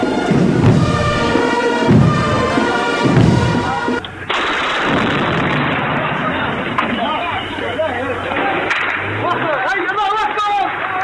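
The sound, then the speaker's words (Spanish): Gunfire from street fighting between rebels and government forces in the war in Libya, with dense, sharp cracks and thuds in rapid bursts over a constant noisy wash, while voices are heard through much of it. “La guerra continúa en Libia, los rebeldes luchan contra Gaddafi en las calles de Misrata.”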